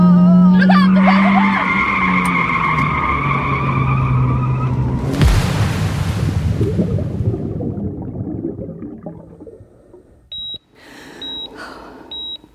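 A car skids with a long, squealing whine for about five seconds, then crashes in a loud burst of noise that fades into a low rumbling decay. A few short, high beeps follow near the end.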